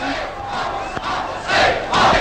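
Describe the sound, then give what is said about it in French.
A theatre audience shouting and clamouring in a loud, dense roar of many voices that swells in two stronger surges toward the end. “Écoutez-les, mon public! Mon cher public!”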